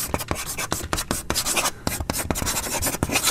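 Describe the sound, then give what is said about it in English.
Chalk writes on a chalkboard in many quick, scratchy strokes with an uneven rhythm, each stroke a dry rasp with short pauses between. “Chalk writing on a chalkboard. Now we're talking.”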